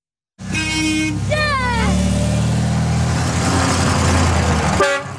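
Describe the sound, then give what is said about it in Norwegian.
Vintage cars from as early as the 1920s struggle up a steep, narrow mountain pass during a classic-vehicle rally, with a loud, steady engine drone and a few warbling horn toots, one early and one at the end. “veteranbiler strevde seg i dag over Tronåsen på grensen mellom Rogaland og Agder.”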